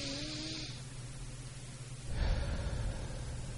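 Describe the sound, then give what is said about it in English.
Slow, deep breathing by someone sitting in a car at a red light: a soft, airy rush of breath swells after a steady low hum. The sound is faint throughout, with no talking. “practice some deep breathing.”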